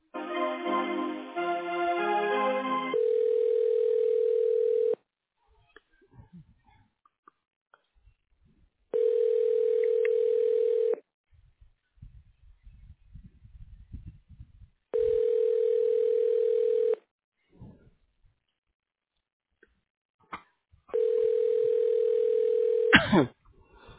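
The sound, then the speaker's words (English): Ringback on a transferred office phone call waiting for voicemail: four steady, evenly spaced tones of the same pitch, each about two seconds long, separated by longer silences. “I can send you down there, and I'll just let it ring, and it should go to a voicemail.”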